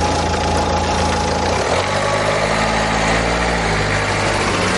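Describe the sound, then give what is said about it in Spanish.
A car engine runs loud and continuous as a woman starts her vehicle and manoeuvres out of a car park. The steady rumble changes tone slightly partway through as the car moves off. “La mujer arranca su vehículo y maniobra para salir del parking.”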